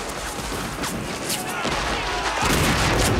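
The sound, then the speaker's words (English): Heavy Confederate cannons and rifle fire in a Civil War battle scene, blasting into the 54th Regiment's ranks, a dense, continuous roar with deeper booms breaking through in the second half. “The 54th Regiment retaliate by firing up at the battlements, but the heavy cannons are realigned by the Confederates and blasted into their ranks.”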